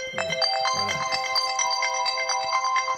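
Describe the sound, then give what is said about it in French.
Telephone ringtone announcing an incoming call: a loud, bright electronic melody of rapidly repeating tonal notes that plays continuously for the whole clip. “Oh, bon, excusez-moi, mais c'est Jacques André, éditeur, qui appelle.”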